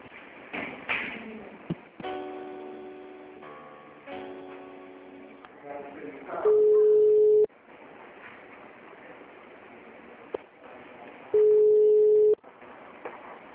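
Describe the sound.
Telephone line tones during a call transfer: two loud, steady beeps of about a second each, separated by a few seconds of muffled line noise and earlier tonal hold sounds.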